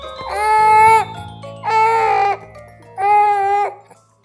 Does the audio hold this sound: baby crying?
yes